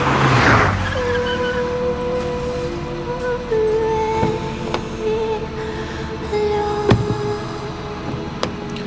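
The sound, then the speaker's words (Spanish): A car drives off quickly, its engine giving a loud, steady droning hum with layered tones. A few sharp clicks or knocks cut through the drone along the way. “Buenos días. Al Parque Nacional Cerro Corá, por favor. y el coche partió raudo.”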